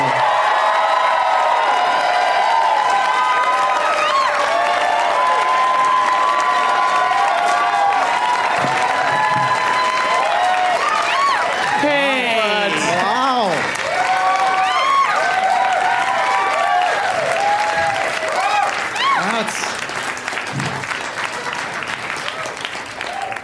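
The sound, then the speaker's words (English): Long, loud audience applause welcoming three guests onto a live show, sustained clapping mixed with cheers and whoops that holds steady for about twenty seconds before thinning slightly at the end. “Please give a big, warm welcome to Ken Reid, Rory Scovel, and Matt Mira.”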